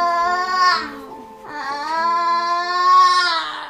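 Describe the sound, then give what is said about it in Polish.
A small child cries and whines during standing exercises in two long, loud, strained wailing bouts separated by a short pause. “Kiedy dziecko przy ćwiczeniach płacze albo żali się, no to rzeczywiście nie wszyscy wytrzymują.”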